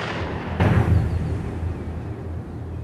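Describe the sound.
A single gunshot fired at a man during an armed standoff: one sharp, loud crack that decays into a lingering rumble over steady background noise.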